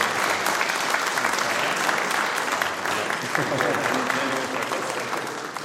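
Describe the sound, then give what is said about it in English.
A church audience applauds and cheers to welcome a guest preacher. Dense, steady clapping fills the whole stretch, with a few voices mixed in. “I'm going to invite you to put your hands together to shout God's praise and to welcome Dylan in the process.”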